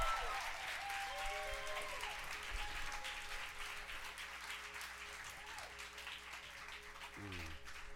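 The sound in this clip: A church audience applauds as a worship leader is welcomed to the stage at a Sunday service, with dense, steady clapping that stays loud and even for the full eight seconds.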